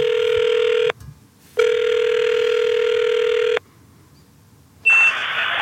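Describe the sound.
Telephone ringing tone on a phone line during a prank call, three steady electronic tones separated by silent gaps, the first short, the second about two seconds long, and the last cut off and higher in pitch.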